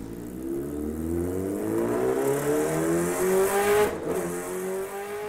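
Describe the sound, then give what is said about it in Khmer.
A motorcycle speeding away, its engine revving loud and continuous while the whine climbs steadily in pitch, with no voices over it. “និយាយចប់ហេងក៏បានជិះម៉ូតូយ៉ាងលឿនចេញបាត់ទៅ”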